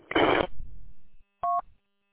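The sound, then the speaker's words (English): A short electronic beep sounds from a two-way radio after the transmitter is unkeyed, preceded by a brief burst of static hiss; the beep is a single clipped tone, and no voices are heard. “what's that beeping about? The beeping after every time either one of us unkeys?”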